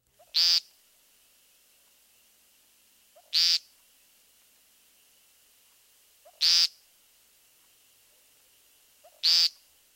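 Woodcock peent calls: four loud, buzzy, nasal notes, evenly spaced about three seconds apart. Each is preceded by a very faint short note, with quiet background between calls.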